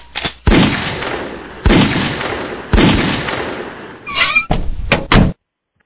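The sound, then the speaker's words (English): Gunshots at a shooting range: three booming reports, each trailing off in a long decaying tail, then a burst of quicker, sharper cracks before sudden silence. “Besides practice, if done right, it's fun. Why? Well, because it's fun to shoot stuff.”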